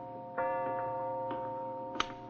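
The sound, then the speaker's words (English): A clock ticks with a few soft clicks over a steady humming tone, and one sharper click comes near the end. “Is that clock right, Buzz? No, it's about 5 minutes slow, Mr. Vincent.”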